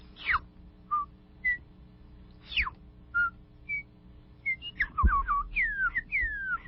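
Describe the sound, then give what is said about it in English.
A komako, the New Zealand bellbird, singing at dawn: clear, bell-like whistled notes, some short and level, others sliding quickly downward, in an irregular phrase over a faint low hum. “That is the sound of our birds, the komako, which is a small, humble bird, which welcomes in the sun.”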